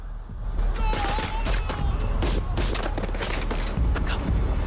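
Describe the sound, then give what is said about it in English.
Rebels firing guns into a villager's body in a village: many rapid, crackling gunshots in dense bursts, loud and continuous throughout. “The rebels riddle a villager's body with bullets.”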